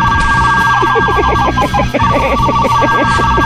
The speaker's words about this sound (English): Is that the fart phone? Yeah. Was that the fart phone? That was the fart phone.